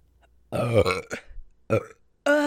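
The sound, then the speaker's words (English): Loud, croaky burps, a long rumbling one first and then a few shorter ones after brief pauses, heard alone without talk. “You're gonna hear a lot of burps in the audio”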